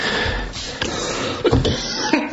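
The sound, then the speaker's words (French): A few short coughs from an adult, moderately loud, against a low background. “Pardonnez-moi de tousser.”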